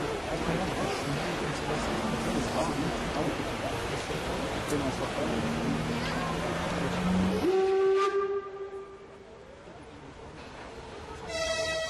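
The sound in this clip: Steam locomotive whistle at a railway grounds: after a long stretch of loud, steady rumbling and hissing train noise, a sustained harmonic whistle tone sounds for several seconds, then the background drops quieter.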